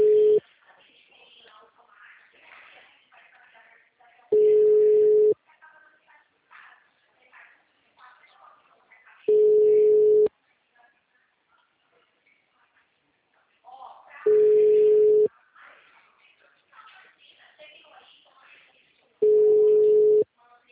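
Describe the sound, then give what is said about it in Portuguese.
A telephone busy tone sounds after a dropped call: five evenly spaced steady beeps, each about a second long, separated by longer gaps where faint voices murmur. “a ligação caiu. Caiu. A ligação caiu.”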